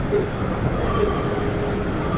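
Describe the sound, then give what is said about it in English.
A Beijing Subway train arrives at Guchang Station with a steady low rumble of wheels and carriage noise, and faint thin squeals drift over the continuous roar. “We are arriving at Guchang Station. Thank you for taking Beijing Subway.”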